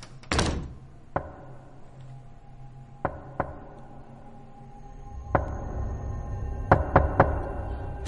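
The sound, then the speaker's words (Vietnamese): Knocking on a door from outside at night: scattered dull knocks, some single and some in quick clusters, over a faint low background. “Tiếng gõ cửa vang lên ở bên ngoài, rõ mồn một.”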